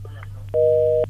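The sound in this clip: A telephone busy tone on a call-in line after the caller hung up: one steady, mid-pitched electronic beep lasting about half a second, rising clearly above a low constant hum.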